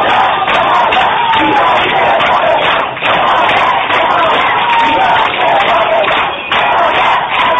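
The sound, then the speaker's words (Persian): In Tehran, a crowd of protesters confronting police shouts to officers for support. Loud, overlapping voices are joined by a few dull thuds within the constant crowd noise. “این صدای مردمی است که بر اساس یک ویدئوی منتشر شده بر روی شبکه‌های اجتماعی در برخورد با پلیس از آنها درخواست حمایت می‌کردند.”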